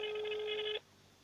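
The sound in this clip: A single telephone ring tone from a call placed to a mayor's office: one steady buzzing tone lasting under a second, cut off abruptly into quiet.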